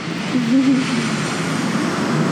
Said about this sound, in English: There's airplanes flying by.